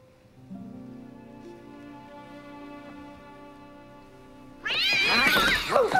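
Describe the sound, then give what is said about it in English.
A cat meowing: a sudden burst of loud, wavering yowls that bend up and down in pitch at the end, following a quieter stretch of steady low tone. “I was just attacked by vermin! That's my cat, Clarence Darrow.”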